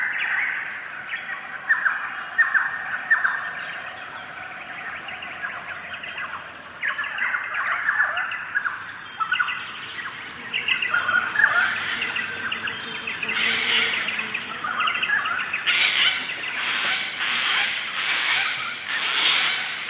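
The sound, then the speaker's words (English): Birds call across the Blue Mountains of Australia, a landscape of cliffs, waterfalls and sandstone formations. Varied chirps and tweets come first, then a run of louder, sharper repeated calls toward the end. “Australia, it's a landscape filled with cliffs and waterfalls and sandstone rock formations that provide habitats for a wide variety of wildlife. Andrew Scoach recorded these rich sounds for his CD, The Blue Mountains.”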